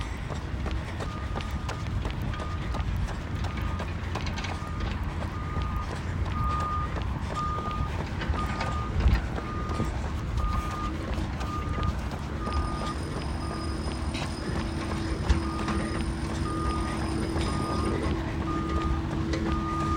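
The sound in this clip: A truck reverses at a construction site, its backup alarm sending a steady run of evenly spaced high beeps over a constant rumbling, noisy background.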